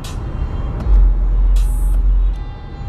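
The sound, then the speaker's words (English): Heavy traffic on the 10 freeway in California makes a continuous low engine rumble. Midway it grows louder, with a short, sharp hiss of air brakes, then eases back to a steady drone. “sorry for all the noise. Like I said, I'm in traffic out here in sunny California. Early, I'm on this 10 freeway, headed to the house.”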